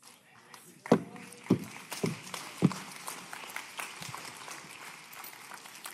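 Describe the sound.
Footsteps go upstairs during a sermon. Four firm thumps fall in a steady rhythm, then fainter steps follow amid a background murmur.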